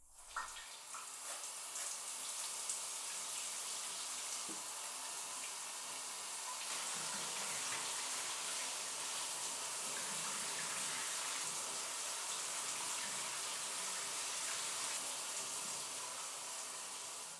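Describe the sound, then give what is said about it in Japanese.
Water is poured in a bath to rinse someone off, making a faint, steady hissing stream that runs without pause for the whole stretch and swells slightly partway through. “そろそろ流すよー。”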